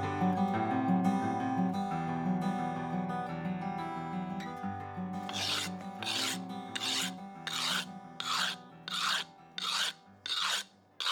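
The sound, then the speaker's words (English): Rasp filing and smoothing hard Derbyshire stone while shaping a carving's curves: after a steadier opening stretch, many loud, regular rasping strokes follow in a quick, even rhythm. “Sometimes a mallet and chisel are not quite the right tools for the job, and smoothing off can be quicker using a rasp.”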